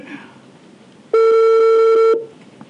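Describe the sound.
An outgoing telephone call rings unanswered: a single steady, high-pitched ringback tone lasts about a second, with faint background noise before and after.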